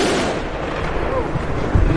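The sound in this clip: Gunshots fired into the air by Taliban police dispersing women protesting in Kabul: a few sharp reports, the strongest near the end, over a loud, continuous, noisy din.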